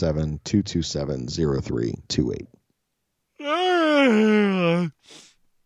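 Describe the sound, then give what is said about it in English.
A long, drawn-out groaning yawn, its tone sagging slightly toward the end, follows a stretch of talk as two people trade yawns. “So we're both just exchanging yawns in a fucking banjo duel of our era here.”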